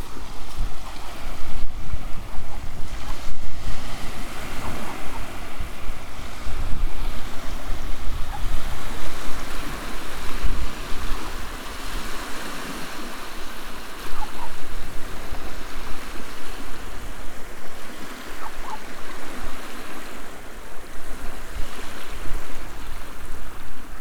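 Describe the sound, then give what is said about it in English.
Wind and waves roar on a beach at Port Scafo as the wind picks up, a loud, continuous rushing wash with gusty buffeting that swells and eases throughout. “I've reached the beach at Port Scafo. The wind's picked up a bit.”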